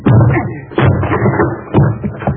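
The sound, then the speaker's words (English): A door is being broken down with a few heavy, booming thuds in a steady pattern of blows. “I'll have to break the door down, Margo.”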